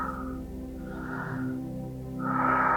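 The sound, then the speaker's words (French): Slow, deep breaths during a guided breathing exercise, each breathy inhale or exhale rising and settling in a few unhurried waves over a steady low hum. “Encore 10. Inspirez, relâchez.”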